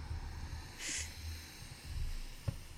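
A deep breath drawn in and slowly let out, soft airy rushes of air with one brief hissy burst, quiet and steady, with no talking.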